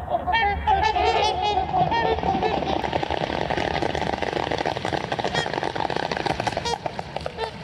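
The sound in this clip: A large flock of long-necked waterbirds takes flight from water at winter sunset, with many overlapping honking calls above a continuous, dense rushing noise that stays loud throughout.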